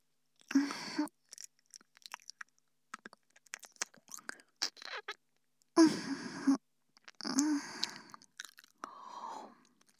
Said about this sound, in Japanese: 少し、お味見させてくださいね。